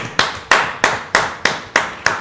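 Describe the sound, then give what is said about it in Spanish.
Seven loud hand claps in a steady, evenly spaced rhythm, as an audience claps in unison during a trivia moment at a comic convention. “¡Un aplauso!”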